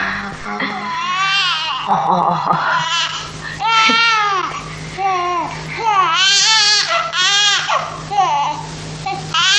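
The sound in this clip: A baby cries in a run of loud, high wailing bursts with short breaks between them, each sob rising and falling in pitch.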